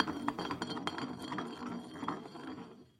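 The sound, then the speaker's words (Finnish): A glass bottle spinning on a surface in a game of spin the bottle, giving a continuous rattle of small glassy clinks for about three seconds before trailing off at the end. “Eli pistetään pullo pyörimään. Pyörii.”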